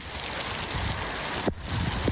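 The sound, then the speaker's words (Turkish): A short, heavy rain shower in a city street gives a steady, fairly quiet hiss. A couple of brief knocks cut through it. “Kentte güneşli hava yerini kısa süreli yağmura bıraktı.”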